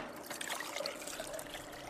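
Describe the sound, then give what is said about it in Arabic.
Water trickles and pours steadily into powder mixture number 3 during document restoration work, a continuous liquid stream lasting the whole two seconds with no talk. “طاولن البودرة رقم 3. تفضل. زيد الماء شوي.”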